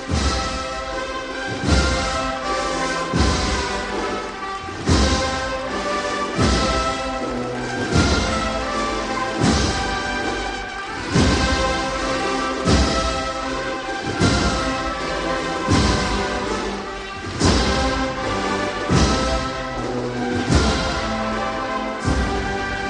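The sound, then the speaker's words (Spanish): Band music for the Spanish national anthem, the Marcha Real, played at a religious procession in Granada as the image of the Señor de la Mano Entrega begins to sway and move off. Sustained harmonies run over a steady, loud, regular beat, with no talk. “Bien, empieza a picar la marcha real y escucharemos el himno de todos los españoles”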